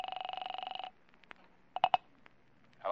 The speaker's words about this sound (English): I dialed the second number she'd called.